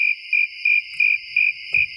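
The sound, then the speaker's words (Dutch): Crickets chirp in six short, high-pitched pulses at a steady, even rhythm, each one bright and clear against near silence. A faint low rustle appears toward the end. “Alleen maar krekels.”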